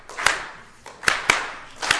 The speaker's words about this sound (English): So you got to get a clap going. No guitar for this one.